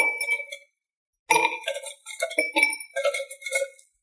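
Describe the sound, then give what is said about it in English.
Ice going into a cocktail shaker: a short burst of bright clinking and rattling, a pause, then a longer run of knocks and chinks that fades out. “So, what I'm going to do now, a little bit of ice.”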